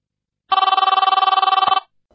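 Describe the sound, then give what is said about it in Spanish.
An incoming call rings on a telephone during a call-in program: a single loud burst of fast electronic trilling, a little over a second long, followed by silence. “tenemos otra llamada.”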